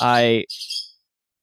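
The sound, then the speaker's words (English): A bird call: a short, harsh, harmonic squawk gives way to a brief, high, thin chirp, all over in about a second, with no other sound after. “That's not the voice. That's just a bird, right?”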